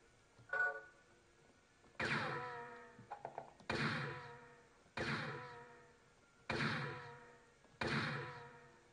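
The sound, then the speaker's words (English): Revolver gunshots in a video game: several heavy, booming shots with short ringing tails, fired at a steady pace, with a few quick mechanical clicks between two of them. “That gun has only bullets from 6 shots. Since I shot 6 now, I have to load bullets.”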